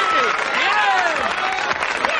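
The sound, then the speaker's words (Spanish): A crowd of men and women in a medieval village claps and cheers around a sword fight, with loud shouting voices riding over continuous applause. “¡Dale un aplauso! ¡Ha luchado bien!”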